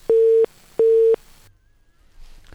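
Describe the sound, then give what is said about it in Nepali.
Busy tone after a phone call to a radio show dropped: two identical steady beeps at one fixed pitch, each lasting about a third of a second, separated by a short gap and followed by near silence. “भेरीगङ्गाबाट बिचमा phone कटेको छ”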